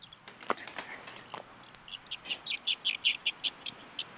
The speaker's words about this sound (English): I thought I heard some birds chirping.